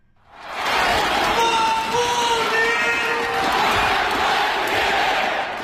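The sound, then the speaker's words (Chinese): A basketball arena crowd at a Beijing home game of the CBA season chants Marbury MVP in support, a loud, sustained mass of cheering and rhythmic shouting that barely lets up. “在全场不停的高喊马布里 MVP 的加油声中，北京北控主场104-92战胜了江苏坎迪亚”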